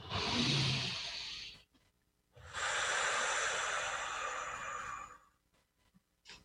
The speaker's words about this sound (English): Take a breath.